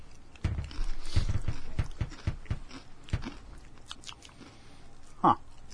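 Crunchy chips being bitten and chewed make loud crisp crunches that settle into quieter, irregular chewing, with one more sharp crunch near the end.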